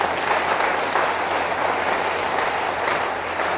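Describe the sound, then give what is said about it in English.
A church audience claps its hands in praise, a dense and steady wall of applause that stays even in loudness from start to finish without a break. “It's a good place for you to clap your hands for the Lord.”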